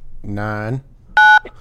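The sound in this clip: A single two-note telephone keypad tone sounds while digits are entered into an automated phone menu. It is a short, loud, steady beep that follows a stretch of voice.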